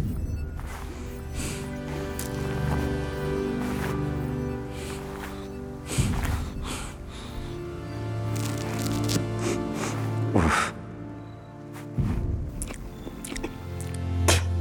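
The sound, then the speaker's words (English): Squishy, wet chewing and biting of mushrooms in the survival video game The Forest, with many moist bites and crunches repeating over steady background music, a few of them noticeably louder. “Oh, mushrooms taste like mold.”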